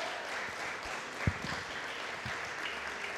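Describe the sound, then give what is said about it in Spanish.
An audience applauding during a church service. A fairly faint, even wash of many hands clapping holds steady throughout, with a few slightly louder thumps and no talk. “Denle un fuerte aplauso a Cristo.”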